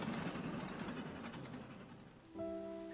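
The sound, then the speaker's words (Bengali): Light drizzling rain with cold wind, a steady soft hiss of fine drops; near the end, sustained musical tones enter over the rain. “বাইরে টিপ টিপ বৃষ্টি পড়ছে সাথে ঠান্ডা হাওয়া”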